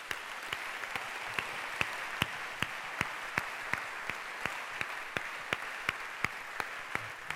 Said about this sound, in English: That's why I would not be shy to ask you to clap for Esther